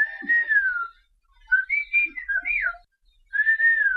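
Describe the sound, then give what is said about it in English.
Whistled language: a few clear whistled phrases with gliding, swooping pitch, separated by short pauses and heard alone. “Whistled languages exist all around the world. They help people communicate over long distances, far longer than you could reach with words. A good whistler in the right conditions can talk to someone up to 3 miles away.”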